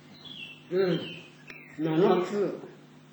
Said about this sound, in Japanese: 大変、有名な鳥で、これがそのカーディナル、